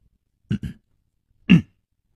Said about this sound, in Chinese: 他干咳了一声说，